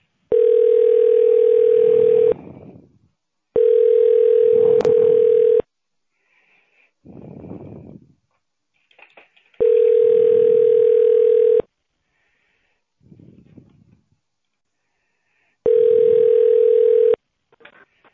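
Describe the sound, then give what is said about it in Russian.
Loud telephone line tones while a call is being connected to a medical clinic. Four long, steady mid-pitched beeps, each about two seconds, are separated by pauses that carry only faint, muffled sounds. “Через 10 секунд мы соединим вас с клиникой.”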